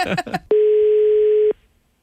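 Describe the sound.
A telephone tone sounds while someone places a call: one steady, loud, unbroken beep lasting about a second, right after brief talk.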